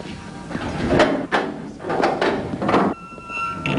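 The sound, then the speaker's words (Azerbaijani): A door is opened in a hurry with a series of knocks, scrapes and clatters of wood and latch, spaced unevenly over a few seconds. “dur qapını aç, tez elə”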